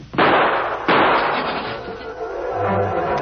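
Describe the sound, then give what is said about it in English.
Gunshots in a radio drama: two sharp, loud bangs less than a second apart, followed by a lingering, noisy rumble that slowly fades. “Look out, Patsy. He's going for a gun. I'm hit, Nick. I'm hit.”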